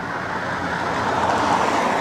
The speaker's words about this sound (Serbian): Čekaj samo da se vratio malo da nas ne ubije auto. Automobil.